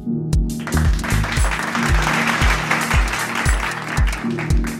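Applause rises as a continuous dense patter of clapping, with a repeating low, falling thump pulsing steadily beneath it.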